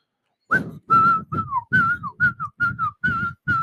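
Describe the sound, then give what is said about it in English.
A person with chapped lips whistles a song: a lively melody of about nine clear, bright notes in quick succession, some bending downward, alone with no talk. “what song do you want me to whistle? I'll do it right now.”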